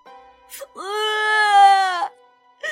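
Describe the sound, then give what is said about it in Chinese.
An acted child's voice bursts into loud wailing tears: a brief catch first, then one long, strained, sustained cry, and another cry just starting at the end. “望着望着，忽然呜哇一声哭了出来。”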